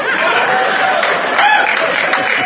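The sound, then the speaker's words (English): Audience applause blends with laughter and chatter, a steady, dense wash of clapping that stays even in level throughout. “Yeah, you know not what you applaud for.”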